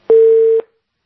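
A single telephone tone, a steady, loud, pure beep lasting about half a second. It is heard alone and cuts off cleanly into silence.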